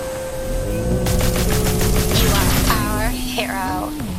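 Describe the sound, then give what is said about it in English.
Rapid gunfire in a video game, a fast rattle of sharp synthetic bursts that begins about a second in and runs for roughly two seconds over a steady electronic hum, then gives way to wavering tones. “So, to fire, to fire, you hold down the space bar.”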